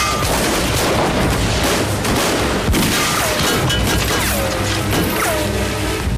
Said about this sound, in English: Bullets smash the inn windows and people lie cowering on the floor.